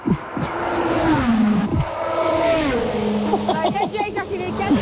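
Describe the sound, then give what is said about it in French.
A car passes at 300 km/h, its engine tone sliding downward as it goes by, with voices talking over the sound. “on va entendre le bruit d'une voiture qui passe à 300 km/h.”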